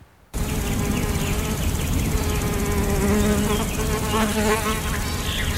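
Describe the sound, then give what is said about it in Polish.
Insects buzz steadily in a quiet meadow, a dense, continuous drone of bees and flies that holds an even level throughout, with no voices. “Cisza, spokój, łąka, piękno przyrody.”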